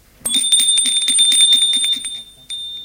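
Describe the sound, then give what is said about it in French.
A doorbell rings at a home in the evening with a rapid, high metallic trill lasting about two seconds, then a brief second ring after a short pause. “Le lendemain soir, Charles avec Gilles sonne chez Quentin.”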